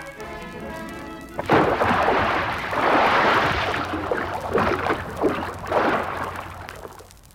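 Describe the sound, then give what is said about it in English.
Someone dives off a pier into water, making a sudden loud splash followed by several seconds of churning, surging water that slowly fades. “I'm diving off this pier, and when I do, you'll never catch me.”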